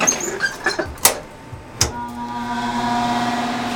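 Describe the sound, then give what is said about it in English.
Air ventilator of a biosafety cabinet being switched on: a few sharp clicks and knocks, then a fan hum with a steady tonal whine that builds and holds. “He opens the hood of the biosafety cabinet and switches on the air ventilator.”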